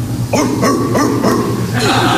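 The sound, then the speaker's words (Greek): A small dog barking in several short, high, yapping yips with a bouncy rhythm, over a steady low background tone. “Το σκυλάκι.”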